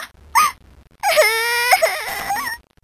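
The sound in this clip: Someone crying in a tense medical scene: a brief whimpering sob, then a sustained, wavering high-pitched wail that rises and dips for about a second and a half before breaking off.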